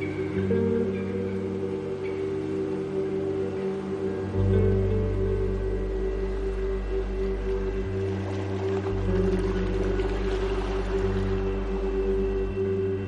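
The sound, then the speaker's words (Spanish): A motorboat engine drones steadily in a continuous loud harmonic hum whose low tones shift a few times and never drop away. “La lancha coge velocidad y toma una curva pronunciada.”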